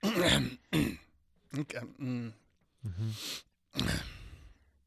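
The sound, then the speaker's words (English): A voice imitates phlegmy throat clearing in several separate rough bursts, gurgling and rasping, with short pauses between them. “My response to what you said was phlegm.”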